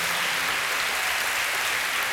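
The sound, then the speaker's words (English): An audience claps during a church sermon, producing dense, even applause that holds steady and fairly loud for its full two seconds. “we ought to just pause for a second and give Jesus a hand clap. Can we just give a hand clap to Jesus for what this means on this day?”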